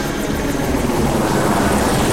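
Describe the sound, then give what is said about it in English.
Steady, loud roar of a Black Hawk helicopter lifting off, a dense, continuous rotor and engine wash with no breaks across the whole clip. “As the chopper lifted into the air”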